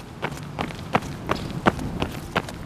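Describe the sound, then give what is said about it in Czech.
Soft running footsteps of a jogger on a route through town. Quiet, even thuds fall at a steady pace of roughly three per second over a low background hiss. “Odpoledne se jdu proběhnout.”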